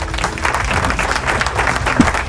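Audience applause fills the whole stretch, a steady dense clatter of many hands clapping at a fairly loud level without a break, with no voices standing out over it.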